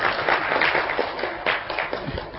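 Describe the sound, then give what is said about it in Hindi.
Audience clapping at a spiritual gathering: a burst of scattered, moderately loud claps with a few sharper peaks, thinning toward the end. “ताली अभी नहीं चाहिए, ताली कब चाहिए बताए, कल सवेरे है ना।”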